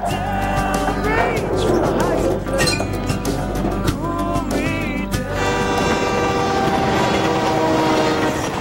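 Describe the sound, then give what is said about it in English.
A railway truck travels along a track with a loud, continuous rumble and metallic clinking. Sustained horn-like tones sound over the rolling noise. “She notices a railway truck driving along a nearby track.”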